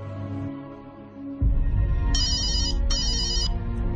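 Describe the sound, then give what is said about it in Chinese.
A mobile phone call rings out in two short, high electronic ringtone bursts separated by a brief gap, over a steady low droning backdrop. “打开手机，小美打通咗佢闺蜜小艾嘅电话。”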